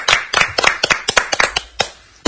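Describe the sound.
Studio applause for a guest comes as many sharp, distinct hand claps in a quick, slightly uneven rhythm. The bursts are clearly separated rather than merged into a wash. They stop in a brief pause before another loud sound starts at the very end.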